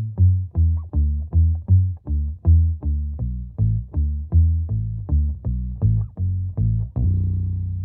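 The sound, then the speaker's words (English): Slow bass line picked low on a guitar: a steady run of many deep, evenly spaced notes with a slightly gritty edge, ending on a longer held note. “played some really tasty, slow bass lines like this one”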